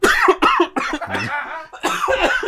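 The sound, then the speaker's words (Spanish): Several loud, throaty coughs from one person come in quick succession with short pauses between them, some with a rasping, voiced quality. “Piensa en Babo. Sí te hace toser.”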